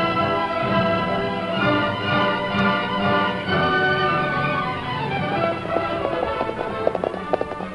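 Hoofbeats of a posse's horses riding off in a radio drama: a dense, rapid, rhythmic drumming of hooves that holds steady, with sharper individual hits toward the end.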